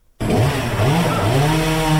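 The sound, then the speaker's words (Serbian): Chainsaw cutting firewood in a residential neighbourhood of Budva's town centre during the heating season: a loud, steady droning engine whine that starts abruptly after a brief silence, its pitch wavering slightly as the blade bites, with no talk. “Ovo je centar Budve u sezoni grijanja. Drvima se uzurpiraju zelene površine, a motornim testerama život u stambenim naseljima.”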